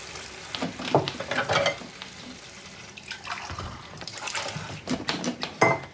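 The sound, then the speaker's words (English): Mugs being rinsed in a washing-up bowl in a sink: water swishes and splashes while ceramic clinks ring out a few times, fairly quiet and with no voices. “He looks awkward as she rinses two mugs from a pile of washing up in a bowl in the sink.”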